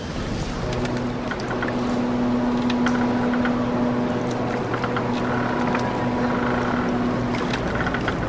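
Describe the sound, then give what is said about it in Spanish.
A nearly 80-year-old boat cruises on a lake in wind and rain, giving a continuous, fairly loud low engine drone mixed with broad wind rush and a steady hum. “espero que a ninguno le dé vértigo viajar en barco porque nos espera un lindo paseo en el lago. Sí, vamos a apurarnos porque acá estoy muriendo, pero entre el viento y la lluvia yo me estoy muriendo de frío, loco.”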